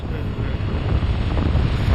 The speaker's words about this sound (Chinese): 现在开始起外面风了。 雪原上起风了。